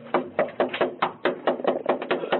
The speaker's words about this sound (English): They knock on his door.